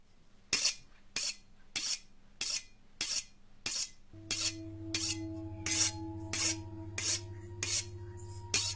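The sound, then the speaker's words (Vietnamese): A sharp, shiny butcher knife is drawn against a table edge in many regular, evenly spaced rasping strokes. A low, sustained droning tone joins partway through and continues under the strokes. “Nó đứng lên lặng lẽ cầm lấy con dao bầu sắc nhọn, bóng loáng. Nó mài con dao vào cạnh bàn, âm thanh nghe rùng rợn.”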